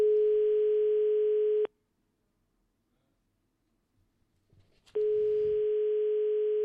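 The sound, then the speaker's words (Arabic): Telephone ringback tone on a call to a mobile number: a steady buzzing tone sounds for about a second and a half, stops for a long silence, then starts again, with faint rustling just before it returns. “والرقم يرن”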